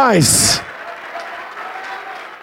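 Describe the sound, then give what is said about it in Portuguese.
A church audience applauding during an altar call, with steady, even clapping that continues at a moderate level after a brief loud burst at the start. “oh glória, vamos aplaudir mais”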